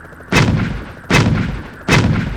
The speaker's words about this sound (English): And Cizo unslung the multi-round projectile launcher and began chugging away the final answer. And Cizo's reply was more than enough to blow the two traitors off the mountain.